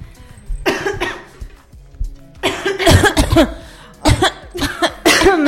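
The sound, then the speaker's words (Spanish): Harsh, repeated coughing from a smoker, in several loud fits separated by short pauses, each burst rough and chesty. “Ay, qué una tos. Pero ¿por qué tenés tanta tos?”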